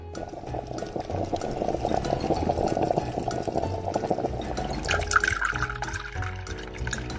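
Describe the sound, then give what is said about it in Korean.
Hot water is poured into a cup of instant ramen as one continuous hissing stream. Near the end the tone shifts higher. “그리고 준비한 컵라면에 뜨거운 물을 붓는다.”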